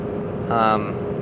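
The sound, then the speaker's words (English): A steady low engine and road rumble fills a car's interior while it drives on the Autobahn, with a short burst of voice rising briefly over the hum. “isn't it distracting to record a podcast while you're driving? It's really not. And while I am... Did I shift? Yeah. I am on the Autobahn. It makes it pretty mindless to drive.”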